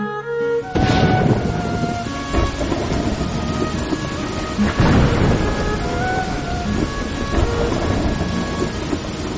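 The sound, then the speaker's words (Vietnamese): Heavy rain pours down in a dense, steady roar that stays loud for the whole stretch, with sustained tonal notes sounding over it. “Bên ngoài, trời bắt đầu đổ mưa như thể khóc than. Cơn mưa tầm tã ào ào trút xuống.”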